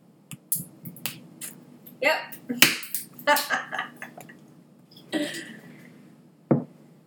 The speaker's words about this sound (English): There's nothing left in there, so I have to open another bottle. All right. Can you continue this conversation on your own while I open another bottle?